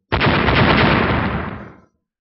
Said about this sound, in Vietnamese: Lại là một chuỗi âm thanh nổ tung cực lớn vang lên, vô số kim quang bay ra tung tóe